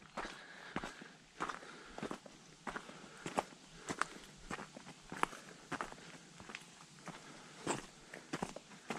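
Footsteps of someone walking uphill on a trail: many soft, crunchy steps in a fairly regular rhythm, quiet and irregular in strength, with no voices.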